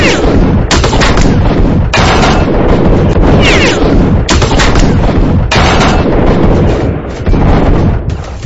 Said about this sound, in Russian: А через минуту, когда бандиты очухались, они открыли по нам шквальный неприцельный огонь.